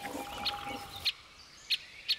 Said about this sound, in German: Auch die Buntspechtküken sitzen in ihrer Höhle fest. Sie können noch nicht fliegen, dafür aber umso ausdauernder nach Futter betteln.